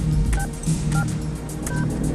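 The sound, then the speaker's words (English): Phone keypad buttons pressed in a phone booth, giving three short two-tone dialing beeps spaced evenly apart over a steady low background hum. “presses the phone buttons. The bottom two buttons light up.”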